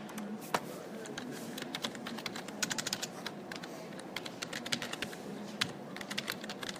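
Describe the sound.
Keys clatter on a computer keyboard as someone types code, a brisk, irregular run of many light clicks with occasional sharper taps, steady throughout.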